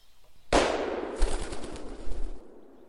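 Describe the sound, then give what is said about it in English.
A single shot from a hunting gun cracks loudly through a quiet wood, a sharp blast followed by a rumbling, crackling tail that fades out over about two seconds. “A jolt pressed the butt of the gun into Charlie's shoulder, and the sound of the shot barged its way through the tranquility of the wood.”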